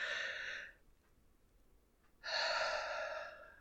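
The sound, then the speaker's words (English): Deep belly breathing: a long, airy breath fades out, then after a quiet pause a second deep breath comes in loud and breathy, with no talk. “So, yeah, breathe. Deep into the belly.”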